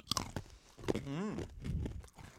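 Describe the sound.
Crisp biting and chewing of a brittle made with mealworm larvae, like peanut brittle. A few sharp crunches come at the start, then softer chewing, with a brief gliding vocal sound in the middle.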